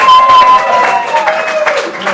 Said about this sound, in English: Yeah, applause, please, come on.